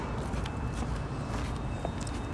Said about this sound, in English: So we're walking back.